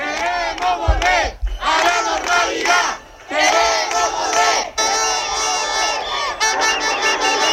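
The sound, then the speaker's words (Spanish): A crowd of protesters shouts and chants in the streets of Ceuta at night, a loud, dense mass of voices in sustained bursts broken by brief pauses. “Es el sonido de las protestas de esta noche. Los ceutíes han reclamado en las calles la vida que tenían antes”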